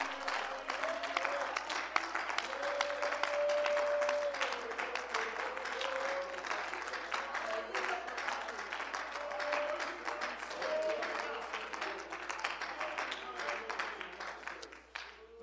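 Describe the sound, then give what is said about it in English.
Congregation clapping hands together during a church service. The applause is dense and continuous, holding steady and fairly loud for the whole stretch before easing slightly at the end. “Amen, put your hands together. Let's clap our hands to the Lord one more”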